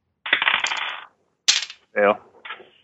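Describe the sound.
Dice are rolled for a psychology check during a tabletop horror role-playing campaign set on the Orient Express: a loud rattling burst, then a sharp clatter, with a brief voice and a softer knock after it.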